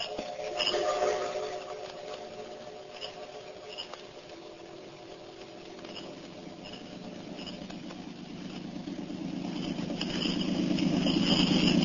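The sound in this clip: A motor launch engine drones steadily as the boat runs, a continuous low rumble that holds even before swelling louder near the end.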